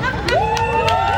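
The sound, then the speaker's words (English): Crowd noise at a rainbow flag raising for Pride Month at Richmond City Hall: a brief, steady hubbub with one voice rising in pitch through it. “That's the sound of Richmond Mayor Danny Avula and city council members raising the rainbow flag in honor of Pride Month.”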